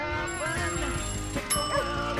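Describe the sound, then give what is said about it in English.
An alarm clock rings with a bright metallic jangle and sustained high tones, fairly faint, mixed with other steady tonal sound. “An alarm clock rings.”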